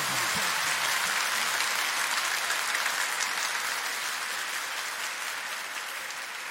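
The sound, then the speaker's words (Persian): An audience claps at a Persian-language religious gathering, a dense, steady wash of many hands that stays loud throughout and tapers slightly near the end. “تو رو خدا اگه قراره برای علی اکبر ارباب دست بزنی یه طوری دست بزن که تو حالا نزدی، یه طوری کف بزن.”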